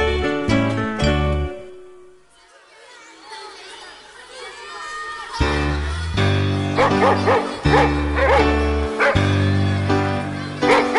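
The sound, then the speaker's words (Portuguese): A dog barks and gives whimpering yelps during a children's song. The music drops away for a few seconds of dog sounds, then returns loudly with rhythmic backing. “Eu sou o cão do Pantaleão, e eu sou um cão apenas cão.”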